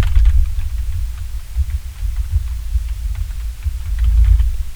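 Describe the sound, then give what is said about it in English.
Keys tapped on a computer keyboard as a VPN number is typed: many light, irregular clicks sit over a low, steady hum that swells and fades slightly throughout. “So I'm going to type in the VPN number.”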